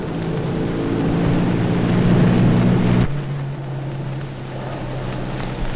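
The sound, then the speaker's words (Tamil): A car arrives in a scene from a 1980 Tamil film. Its engine holds a loud, steady low rumble for about three seconds, then drops abruptly to a quieter hum. “Chettiar வண்டி வந்துருச்சு போல் இருக்கேன்”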